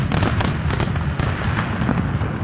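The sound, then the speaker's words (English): Fireworks burst over the Detroit River at night during an annual waterfront fireworks show, a dense, loud, continuous crackle of overlapping pops and bangs with no pause. “Thousands of people gathering along the waterfront to watch the night sky over the Detroit River light up during the annual Ford fireworks.”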